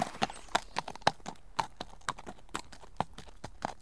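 A horse's hooves clip-clop at a trot out of a courtyard: many quiet, crisp strikes in a fairly regular rhythm, heard alone.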